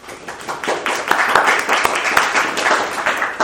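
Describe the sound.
Applause from an audience welcoming a speaker to an evening talk on the Book of Esther: dense, steady clapping that holds at an even level for the whole stretch.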